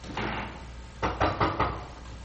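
Knocking on an apartment door: four quick, evenly spaced knocks of moderate loudness, heard alone over a faint steady background.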